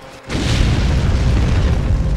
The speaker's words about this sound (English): Don't use your gun. The place will blow.